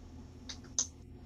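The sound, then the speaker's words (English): A few quick, soft clicks of a computer keyboard as a search is typed, the last one sharpest, over a low steady hum with no talking. “I'm just going to type in Buggery.”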